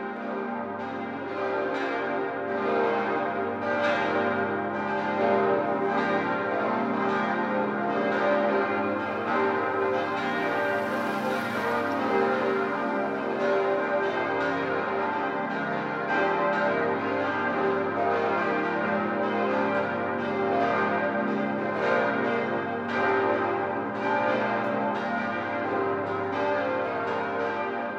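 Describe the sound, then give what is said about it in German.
Church bells ring from a neo-Gothic parish church in Munich built 1892–1906. Several bells peal together in a dense, steady, continuous ringing that holds at an even level throughout, with no voices. “Das Geläute, dem wir gerade lauschen, gehört zur Pfarrkirche St. Paul in der bayerischen Landeshauptstadt München.”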